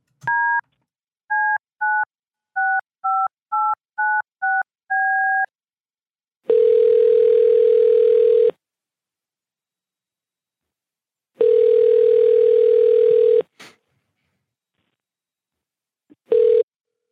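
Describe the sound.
Telephone keypad dialing while patching a call through to a repair shop: a run of nine quick dual-tone beeps, then two long, steady ringing tones separated by silence, ending with a short click and a brief tone.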